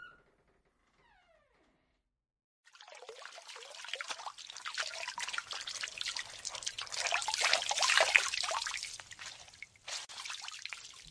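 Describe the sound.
Water runs as someone washes in a shower, a steady hissing, splashing spray that starts after a near-silent opening and continues at a moderate, fluctuating level to the end.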